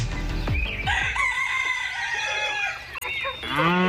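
Farm animals in a village meadow: a rooster crows loudly in long, drawn-out calls with clucking among them, over a dense, continuous background.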